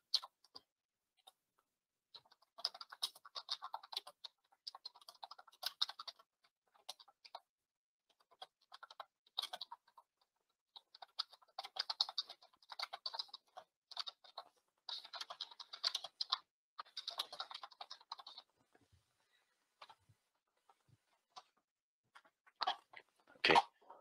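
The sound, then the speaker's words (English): Typing on a computer keyboard in irregular runs of quiet keystrokes separated by pauses, thinning out toward the end into a few isolated clicks. “So let me type in the answer.”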